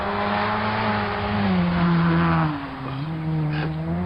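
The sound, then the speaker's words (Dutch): Loud engine roar of a noisy open car driving past: a steady droning note that drops in pitch midway, dips briefly, then picks up again, with no talk. “Daar rijden Super en Hyper. Maar ik heb ze net met grote moeite en inspanning steun gegeven dankzij mijn transmitter. En dan kopen ze er zo'n open lawaai-auto voor.”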